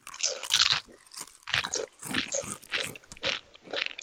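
Crunchy chipotle-flavoured chips being bitten and chewed: a run of sharp, dry crunching bursts repeating with short gaps, loud and close, with no talking.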